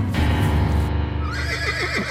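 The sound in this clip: A horse neighs and whinnies: an agitated horse thrashing about as its rider falls. Loud, wavering whinny with rising and falling pitch in the second half, over a steady background sound.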